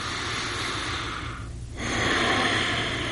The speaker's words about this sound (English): are you willing to take a deep breath over there?